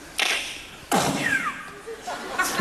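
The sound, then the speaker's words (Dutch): A voice imitates a silenced gunshot followed by a shell casing ejecting: a few breathy, percussive bursts with a brief, thin metallic ping between them. “Je hoort hem. Een huls die eruit vliegt. Geluidsdemper.”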